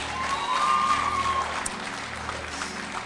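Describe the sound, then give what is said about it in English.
An audience at a religious camp gathering claps in a dense, continuous wash of applause that stays steady and fairly loud throughout. “Clap your hands once again.”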